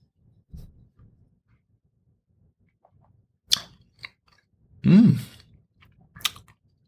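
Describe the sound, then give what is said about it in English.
Wine is swirled and tasted: a few soft clicks and small knocks, then a short, louder slurping sip, followed by one more brief click in otherwise quiet surroundings. “let's give this wine a little bit of a taste, a little more of a swirl, a little bit of a taste.”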